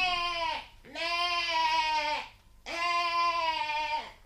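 Goat bleating: three long, loud, nasal cries, each wavering and dropping in pitch at its end, separated by short pauses.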